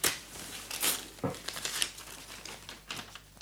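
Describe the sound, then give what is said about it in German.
Paper crackles and tears faintly as a sealed letter is broken open in a scene from Kabale und Liebe, a few crisp rustling bursts followed by softer crinkling. “Höre, Luise, ich erbreche den Brief.”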